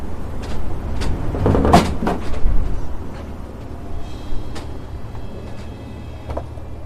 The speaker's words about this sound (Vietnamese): Cánh cửa đóng mở liên tục, phát ra tiếng cọt cà cọt kẹt, gió lớn ùa vào.